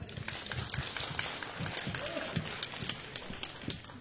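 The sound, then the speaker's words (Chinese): Audience applause welcomes a male-female duo of performers onto the stage at a variety show, a dense, steady patter of clapping that holds at an even level throughout. “那么接下来我们就掌声有请二位。”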